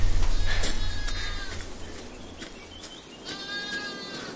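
A lone, bloodied lamb bleats in a few wavering, high-pitched cries, one early and a longer one near the end, over a low background hum.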